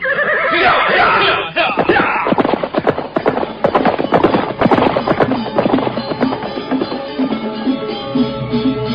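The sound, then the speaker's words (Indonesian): Horses leave a temple courtyard at a gallop. Loud neighs come early, and quick, rhythmic clip-clop hoofbeats clatter on throughout. “Mereka segera naik ke atas punggung kuda. Dan sebentar kemudian, mereka pun sudah berkuda meninggalkan halaman candi.”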